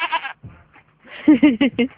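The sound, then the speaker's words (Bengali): Goats bleating: several short, wavering, nasal bleats. A brief call comes first, then a quick run of louder quavering cries near the end. “গান গাইয়া ছাগল ডাকে, সমস্যাটা কি? তোমাকে কম্পিউটারে কোনো সমস্যা হয়েছে নাকি স্যার? না, আমাদের এখানে কয়েকটা ছাগল আছে।”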